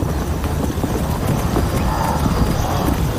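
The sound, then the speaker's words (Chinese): A herd of wildebeest scattering at full gallop, the dense drumming of many hooves forming a continuous, loud, steady rumble throughout, with no voices. “哈拉卡首先驱散了兽群，将目标孤立出来。”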